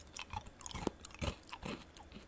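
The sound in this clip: Chewing on crunchy salad croutons gives a series of faint, crisp crunches in an irregular rhythm, with soft mouth sounds between the bites.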